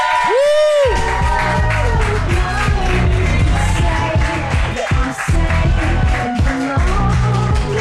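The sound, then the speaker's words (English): A basketball show's audience bursts into applause and cheering. Dense, loud clapping runs steadily throughout, with a high whoop near the start and scattered cheers over it. “Guys, give it up for Dunktown.”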